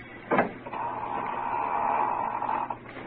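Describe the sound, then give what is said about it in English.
A door is opened with a short knock-like click followed by a long, steady creak of about two seconds, fairly faint and without talk. “Janice King opened another door”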